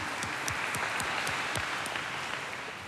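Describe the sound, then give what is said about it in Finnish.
Applause from the audience at a Finnish church mass: dense, steady clapping of many hands that holds at an even, fairly loud level throughout. “Isot aplodit teille.”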